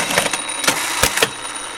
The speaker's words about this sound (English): And I'm dropping by his workshop just as he's sewing the button fly on my jeans.